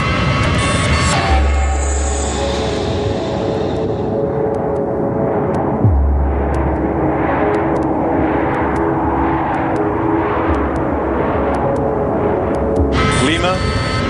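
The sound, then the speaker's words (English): Steady, loud engine drone from an airliner in flight near Lima, flying without instruments, with a voice talking over it throughout. “Just 60 kilometers from Lima, the pilots of Aero Peru Flight 603 are flying without instruments, hoping the tower can help bring them down alive.”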